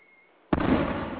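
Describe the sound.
A bomb blast in a video game, part of a bombing run with nukes, bursts in abruptly after quiet, then spreads into a sustained rumbling roar that stays loud until the end.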